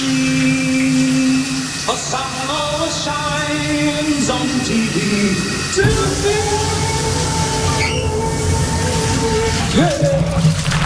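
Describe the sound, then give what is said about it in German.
A shower running, a steady rushing hiss of water that continues the whole time under music and a singing voice. “Neulich in der Hamburg 2 Lieblingsstar-Dusche.”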